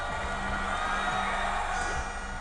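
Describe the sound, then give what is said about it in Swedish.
A crowd cheers for Nayib Bukele, the newly elected president, as he waves from a flag-decorated stage. A steady, dense roar runs throughout, with a low sustained tonal drone underneath. “De vinkar och tar emot folkets jubel.”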